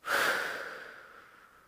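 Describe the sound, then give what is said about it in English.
A single deep, slow breath during a guided relaxation exercise: a soft, airy rush that swells quickly, then thins and fades gradually over about a second and a half, alone in quiet. “Deep breath in and out. And again, let's take a deep breath in and out.”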